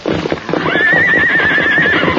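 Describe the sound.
A horse neighs and stamps while straining to break loose. A loud, long whinny wavers in pitch above a rhythmic thudding of hooves, and no one speaks.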